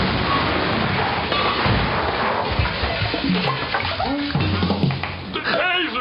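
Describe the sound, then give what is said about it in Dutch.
Water running from a tap as hands are washed, beside a newly installed gas water heater: a steady, loud rushing and splashing that lasts throughout, with voices talking over it. “Kom, ik zal even mijn handen wassen, dan kunnen we aan de slag.”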